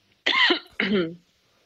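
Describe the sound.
Two short, harsh coughs in quick succession, each a throaty burst with a rough, clearing quality, followed by quiet.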